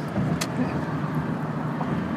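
A car is being driven, giving steady low engine and road rumble that stays even and continuous throughout, with no talk over it.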